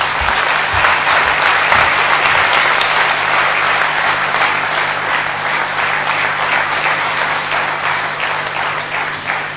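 Thunderous audience applause welcoming guest Dr. Girish Patel at Gyan Sarovar, a loud, dense and unbroken roar of clapping that stays steady for the whole stretch and eases slightly toward the end.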